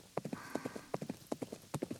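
A horse ridden across open wilderness clip-clops in a quick, even rhythm of many light hoofbeats, faint and alone.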